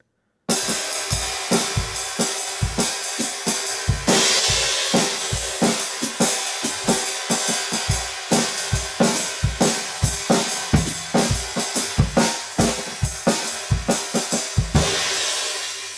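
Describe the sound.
Prototype Zildjian trashy crash cymbal with seven overhammered craters and three rivets, struck many times in a steady rhythm, each hit a bright, harsh, sizzling wash that rings briefly before the next, alone and fairly loud.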